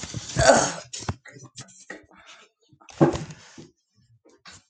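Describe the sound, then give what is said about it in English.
A person grunts while stretching stiffly to reach a laptop, with two short, strained vocal bursts separated by quieter small noises and pauses. “Excuse that grunt as I stretch to grab the laptop.”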